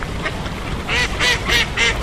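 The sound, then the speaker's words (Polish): Ducks quack on a partly frozen lake where ducks and swans winter, a run of several loud, raspy nasal bursts bunched in the second half over a steady background hiss. “ponad setka kaczek i łabędzi, które zimują na jeziorze Jelonek”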